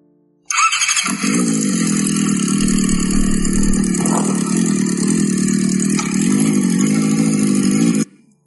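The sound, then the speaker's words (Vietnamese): Engines of a convoy of about ten motorcycles pulling up and stopping together: a loud, steady, rumbling roar that holds for several seconds and then cuts off, with no voices. “Một đoàn xe mô tô dễ phải đến 10 chiếc dừng lại cùng một chỗ.”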